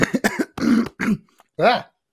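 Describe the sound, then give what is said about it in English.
Throat clearing and coughing from someone with phlegm stuck in the throat: a cluster of short, rough, voiced hacks, two longer throaty coughs, then one final hack after a brief pause. “Yeah, I got like some phlegm stuff stuck in my throat then. That was weird.”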